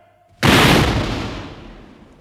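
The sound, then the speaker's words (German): A firing squad's rifle volley at an execution: one sudden, very loud crack that swells into a broad rumbling roar and slowly fades over about two seconds, heard alone. “Plötzlich ertönte ein Krachen und Dröhnen, das Pierre lauter erschien als der furchtbarste Donner.”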